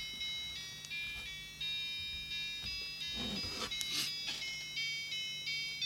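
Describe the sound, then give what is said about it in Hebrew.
A wonderful old clock chimes a tinkling, music-box-like melody of bright high notes at a gentle pace, fairly faint, with a short rustling noise partway through. “אז... זה השעון.”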